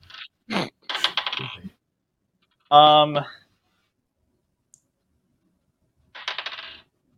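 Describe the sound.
Dice are rolled during a tabletop role-playing game session. A few separate bursts of hard clattering and clicking rattle out, one with a brief metallic ring, with quiet gaps between them.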